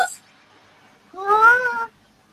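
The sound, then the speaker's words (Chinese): A cat in an animated TV cartoon gives a single clear, drawn-out meow with a bright, tonal whine that holds steady for about a second, after a brief sound at the very start and then a short quiet spell. “睇实自己只猫啊嘛。头先争少少就俾车撞到噶啦。”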